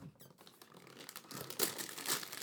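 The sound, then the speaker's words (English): Paper crinkles and tears as a moderate-size gift box is ripped open. The rustling is faint and irregular and grows denser, with a couple of louder crackling bursts toward the end. “why don't you go ahead and rip that sucker open?”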